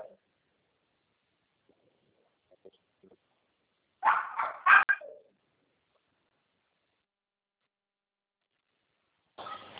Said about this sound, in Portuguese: É que meu cãozinho tá latindo aqui